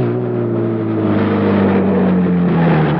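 A car engine roars as the car is driven fast around corners, a loud, steady motor drone whose pitch drifts slightly lower, with no voices.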